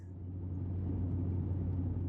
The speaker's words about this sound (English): Frankenstein, think you could slow the van down for, I don't know, the rest of the ride so we don't die?